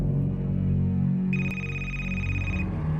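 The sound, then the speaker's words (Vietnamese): A mobile phone ringtone: one sustained, bright electronic tone with stacked harmonics that sounds for about a second in the middle, over a steady low background hum. “Chuông điện thoại của nó đổ.”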